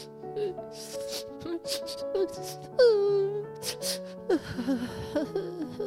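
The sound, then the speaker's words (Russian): A voice actor imitates a hedgehog crying in an audio story, with whimpering sobs and gasps, one rising into a wavering wail, over soft, sustained background music. “В своей комнате ежик сидел и плакал.”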